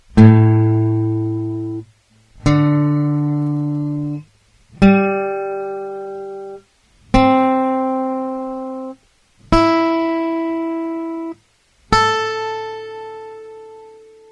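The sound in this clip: Six guitar strings plucked one at a time from low to high, capoed at the fifth fret for an A D G C E A tuning. Each note rings clearly for about two seconds, and the pitch steps upward with every string.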